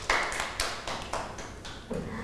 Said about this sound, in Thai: ปรบมือให้น้องหมุยหมุยหน่อยค่ะ